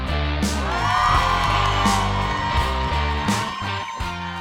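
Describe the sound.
A studio audience yells and whoops on cue, a loud, continuous wash of overlapping cheering voices.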